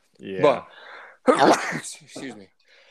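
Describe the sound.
A single sharp sneeze bursts out in the middle of a conversation, loud and brief, with voices talking before and after it.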